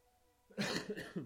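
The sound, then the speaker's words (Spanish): A single cough bursts out after quiet: one harsh, breathy explosion broken into a few quick pulses, fairly loud and alone. “la primera tos en media hora, creo que no está mal. Perdón.”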